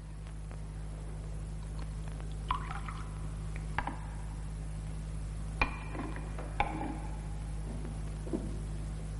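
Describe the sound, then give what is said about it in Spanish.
Soft clinks and liquid sounds of a ladle dipping into a large pot of broth at a convent dining table, a few faint, scattered knocks over a steady low hum. “Una de ellas deja una gran olla sobre la mesa de la antigua priora que coge el cazo y se sirve el caldo a ella misma.”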